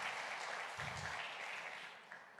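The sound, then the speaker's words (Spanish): A church audience applauds with steady, dense clapping that stays faint and even throughout, with no single claps standing out. “Vamos, dele un fuerte aplauso al Señor. Come on, let's give a round of applause to the Lord.”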